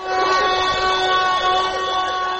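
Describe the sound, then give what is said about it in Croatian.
Sirens and whistles at a street protest by striking health workers in central Mostar: a loud, continuous, shrill blare of layered tones that waver slightly, holding steady for the whole stretch without a pause. “I danas se u centru Mostara u sirene i pištaljke okupilo nekoliko desetina zdravstvenih radnika”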